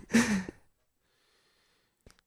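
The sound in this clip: A sharp breath drawn in as if about to speak, one short breathy intake lasting about half a second, followed by near silence.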